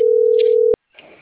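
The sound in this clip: A telephone line tone sounds while a call is being dialed, a loud steady mid-pitched hum lasting under a second that ends abruptly in a click, followed by faint noise.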